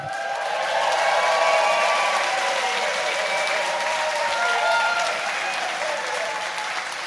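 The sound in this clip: Theatre audience applause at the Clapham Grand welcoming comedian Richard Herring on stage: dense, steady clapping that rises quickly, holds for several seconds and eases slightly toward the end.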